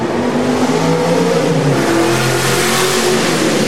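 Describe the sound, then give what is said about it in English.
A Ford Mustang hot rod drives past with its engine revving, a loud continuous roar whose engine tones shift up and down throughout. “hot rod racers. Yeah. Yeah. That was a Mustang. That's a Mustang. He's been driving around here all day.”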